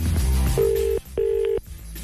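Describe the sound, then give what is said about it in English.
Ringback tone while calling a dishwasher repairman: two steady, mid-pitched buzzing rings, each about half a second long with a short pause between, over a low background rumble. “Hang on, let me call my dishwasher guy 1 second. It's ringing.”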